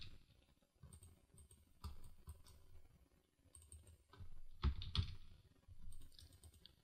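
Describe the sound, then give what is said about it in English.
Faint keystrokes come from someone typing on a computer keyboard. The soft clicks arrive in irregular bursts and clusters with short pauses between them, and there is no speech. “Let's type this in.”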